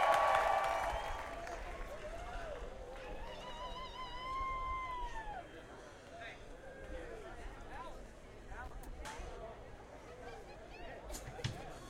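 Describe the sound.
A concert crowd in Atlanta applauds and cheers to welcome a band to the stage, a steady wash of clapping with whoops and whistles that eases slightly over time while a voice talks over it.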